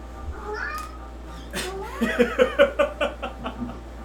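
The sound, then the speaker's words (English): A house cat meows during a tabletop role-playing game session: a few short, fairly faint meows in quick succession, heard over low background hum. “Whoever's cat that was. Adorable.”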